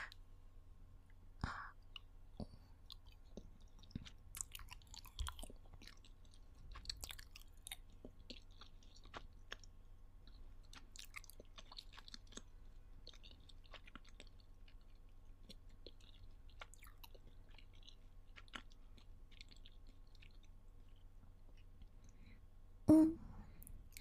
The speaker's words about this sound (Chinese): 那我先吃一口好不好？